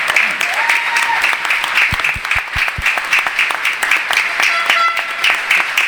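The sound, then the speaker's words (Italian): Steady, continuous applause from an audience at a gathering, loud throughout, with some voices over the clapping. “ci sono stati tanti applausi. Adesso ne chiedo uno per una persona che certamente credo applaudirete, ed è Papa Francesco”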